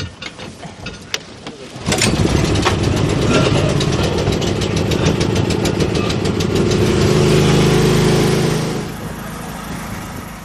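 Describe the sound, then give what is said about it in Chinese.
A generator at a lake sampling site is pull-started by hand. A few brief rattles from the cord come first, then the engine catches and runs with a loud, steady, mid-pitched drone that eases lower near the end. “好，发电机得拉起来。”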